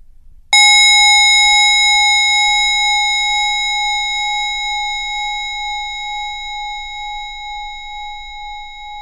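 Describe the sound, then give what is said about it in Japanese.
A single strike on a Buddhist rin singing bowl rings out with a clear, high, bell-like tone and bright overtones. The tone holds with a gentle wavering shimmer and slowly fades over several seconds. “鳴っているお輪の音に心が引き入れられていきます。お輪の音が余韻余情を残しながら去っていくときに、そこに無声の境地が味わえます。”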